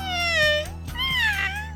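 Two drawn-out meows from a cat that was stepped on while sleeping, the first high and slowly falling, the second rising then falling, over a low steady hum.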